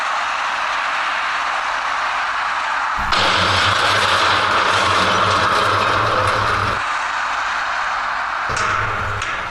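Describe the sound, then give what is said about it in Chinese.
A flatbed trailer truck loaded with iron frames drives east to west toward the Fengyi Bridge. A steady, loud traffic roar carries a deep engine hum that swells through the middle stretch. “这辆拉着铁架子的平板拖车自东向西行驶，司机没有任何的迟疑就驶向了丰益桥”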